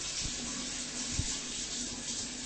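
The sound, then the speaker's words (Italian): Shower water running in a steady, even rush of hiss that stays at a low level throughout, with a brief soft thump near the middle. “Acqua che cade, non è una pioggia. Doccia, è una doccia.”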